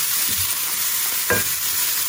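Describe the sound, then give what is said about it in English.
Chopped brown onions and garlic fry in olive oil in a pan, a steady loud sizzle with a couple of brief scraping stirs. “two chopped brown onions, and I have the garlic in there as well, so that was three or four cloves of garlic. And I'll just cook that until it's soft”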